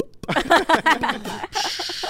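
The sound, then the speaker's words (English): A voice imitates a clothes steamer burping, with a rapid run of sputtering, gurgling bursts followed by a sustained breathy hiss like escaping steam. “I love a steamer. Steaming stuff all day. Yeah. I love it. Love a good steamer. And when it starts burping, it's like,”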